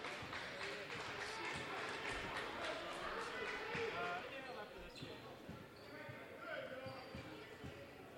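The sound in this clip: A basketball dribbled on the court in a game between La Salle and Math, Civics and Sciences, many steady bounces running beneath constant play-by-play talk.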